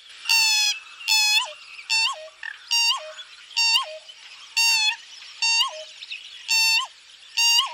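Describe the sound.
Pheasant-tailed jacana calling while foraging in a wetland: a regular series of loud, nasal, mewing notes, each ending in a sharp downward slur, repeated roughly once per second.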